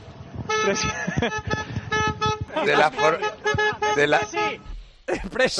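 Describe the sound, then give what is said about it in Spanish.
A driver sounds a car horn in a series of loud, rhythmic toots, as if trying to tap out a team's anthem after a football match. Voices talk and call out over and between the blasts. “De la forma en la que pita el chofer, está pasando un poco de vergüenza al chofer.”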